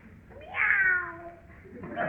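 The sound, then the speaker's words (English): A person imitates a cat's meow: one drawn-out, whiny meow that rises and then falls in pitch, followed by a brief quieter vocal sound at the end. “It's only the cat, Daddy. Meow. Cat, eh?”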